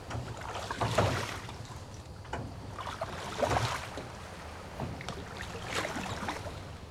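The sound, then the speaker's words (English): Soft splashing paddle strokes as a small boat is paddled away from shore, several gentle rhythmic swishes roughly a second or more apart over a faint, breezy background. “You could just do that? Watch your only son paddle away?”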